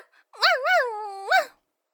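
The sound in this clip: A human voice imitates a dog in one drawn-out, whiny woof-like call. Its pitch wavers up and down, then swells again at the end, with no other sounds.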